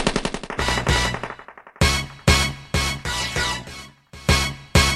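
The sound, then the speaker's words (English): Machine gun fire rattles out in several rapid bursts of sharp cracks, broken by short gaps, loud and dense throughout. “Sometimes I wish God would give me a Holy Ghost machine gun. I'll blow your head off.”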